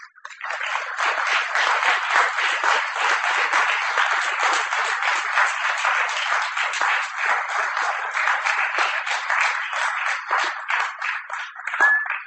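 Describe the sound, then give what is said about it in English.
An audience applauds a poet after a reading: steady, dense clapping from many hands that holds at an even level for about twelve seconds, with no voices over it. “give him a hand. Let's keep it going.”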